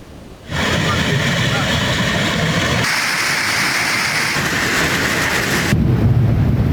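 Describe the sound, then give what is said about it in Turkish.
A sudden heavy downpour with hail in Kars and Ardahan makes a dense, loud, continuous roar that fills the whole clip, its tone shifting a couple of times. “Kars ve Ardahan'da aniden bastıran sağanak ve dolu ortalığı adeta savaş alanına çevirdi diyebiliriz.”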